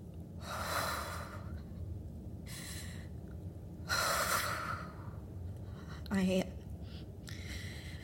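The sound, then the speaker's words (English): Deep, slow breathing: a few airy inhales and exhales, faint and breathy over a low, steady hiss. “Try taking deep breaths.”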